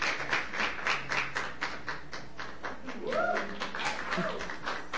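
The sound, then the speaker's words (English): An audience at a poetry reading in Bellingham applauds a poet coming on stage. Dense, continuous clapping fills the whole clip, and a brief high vocal cry rises over it partway through. “Put your hands together and really, I mean, welcome him up for the last time in Bellingham.”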